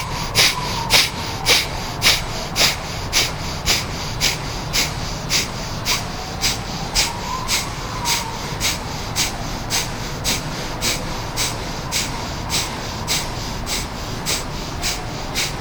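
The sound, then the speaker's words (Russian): Forceful breathing through the left nostril with the right nostril closed, during a breathing warm-up: many sharp, evenly paced nasal puffs in a fast, steady rhythm, loud at first and gradually softer. “И снова дышим. Правую ноздрю закрыли, левой дышим.”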